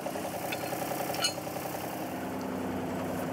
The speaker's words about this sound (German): Und wenn er dann läuft, ich mache einen dritten Gang drin. Ich fahre den Radlader nicht so oft.